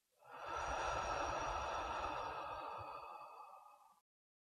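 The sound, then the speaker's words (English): One long, slow breath out during a guided breathing exercise, soft and airy, holds steady for nearly four seconds before stopping, alone and quiet. “Good. Do that again. Breathe in and out.”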